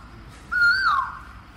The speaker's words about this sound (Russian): Да, это вриндаванские кукушки. Они не совсем похожи на русских. У них гораздо более сладкие голоса.